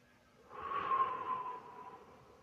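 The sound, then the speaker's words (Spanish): A deep inhale through the nose during a guided breathing exercise: a single airy, drawn-out sniffing breath that swells and then tapers away, alone against near silence. “Respiro profundamente, inhalando por la nariz, inflando el estómago. Inhalamos.”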